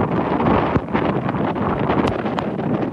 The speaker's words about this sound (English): That's the sound of wind gusts, some of which have been clocked at 135 miles an hour from what's been named Cyclone Mocha.